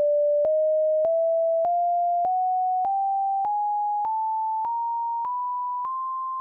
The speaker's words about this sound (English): So each copy of the scale starts out super quiet and low in pitch, and then it gets louder around the middle of its range.